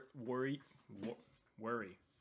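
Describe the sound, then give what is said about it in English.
Dogs squabble with three short, whiny yelping vocalizations separated by brief pauses, moderately loud against a quiet background. “Dogs, stop fighting.”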